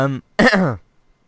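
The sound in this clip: Coughing after a drink went down the wrong way comes as two loud, rough coughing bursts, a short one and then a longer one, heard alone.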